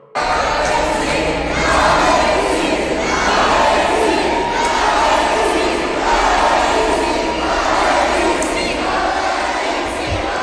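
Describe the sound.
In the hall of Montreal City Hall, a crowd cheers and chants for footballer Alexis Sanchez. The loud, dense roar of many voices swells in repeated rhythmic waves and barely lets up.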